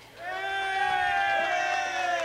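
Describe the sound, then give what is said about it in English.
An audience cheers and whoops for a dance band after a call for a hand, with sustained voiced cries blending into a loud, steady crowd roar. No distinct clapping stands out. “Right now, we invite you to dance to a very fine group, Macropolis, ladies and gentlemen. How about a nice hand for the band?”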